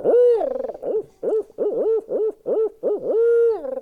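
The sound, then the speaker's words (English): Owl hooting imitated by a caller's voice at a turkey calling competition: a long wavering hoot opens, then a quick, rhythmic run of many short rising-and-falling hoots, and a final drawn-out hoot, all loud and alone. “get that damn owl out of my basement.”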